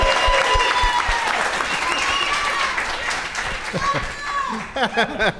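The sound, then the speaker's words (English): Audience applause greets a first-time guest on a comedy show: dense, sustained clapping and crowd noise with voices over it, thinning into scattered claps near the end. “And also joining us, first-time guest, everybody, give it up for James Bundtrock.”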